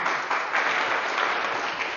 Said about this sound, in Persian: بیا به به آقا بفر، یه دست به افتخارش بزنید.